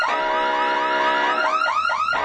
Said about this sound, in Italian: Che è successo? Cos'è questo? Ancora un altro allarme?